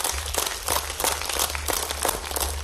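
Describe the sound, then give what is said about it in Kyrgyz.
Audience clapping to welcome a young poet onto the stage at a poetry evening. The applause is steady and fairly loud, with individual claps standing out above a low, constant hum. “Кол чабуулар менен тосо алыңыздар Максат Жангазиев.”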